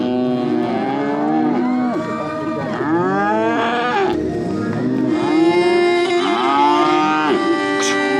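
Calves mooing at a livestock competition: many overlapping, drawn-out moos with rich harmonic tones, loud and continuous throughout.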